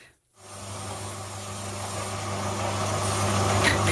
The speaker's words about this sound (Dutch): Het geluid van je jeugd. Dit is een slijpmachine.